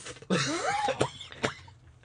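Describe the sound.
A man coughing and clearing his throat after choking, with a few sharp coughs following rougher throaty sounds, loud and without speech.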